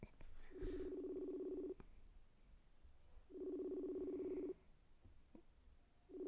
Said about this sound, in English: That's because there's no voicemail. It'll ring forever. All right, he's not fucking answering.